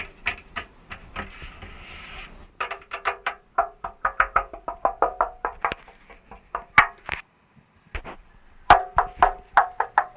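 A hand knocks and taps over the different parts of a car's steel body, making many irregular knocks of shifting tone and hardness. They come in clustered bursts separated by short pauses.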